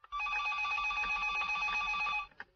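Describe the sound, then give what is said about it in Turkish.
A telephone bell rings in a home, one long continuous ring of about two seconds, loud and bright, followed by a brief trailing burst before it stops. “Telefon çalıyor. Bak bakalım kimmiş arayan.”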